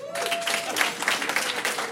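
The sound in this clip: Audience applause in a comedy show, sustained clapping from many hands that holds steady and moderately loud for the whole stretch, with no clear voices on top.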